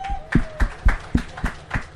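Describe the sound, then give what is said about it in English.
Audience applause recognizing a bank that held a first-ever job fair for people with autism: about half a dozen heavy, thudding claps, evenly spaced and slow, with a faint voice at the start. “Give them a round of applause for that.”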